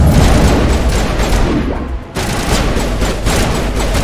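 Video game gunfire: a dense, loud rattle of rapid shots in a firefight against Geth enemies. It runs almost without pause, with a brief dip partway through before the barrage resumes at full strength.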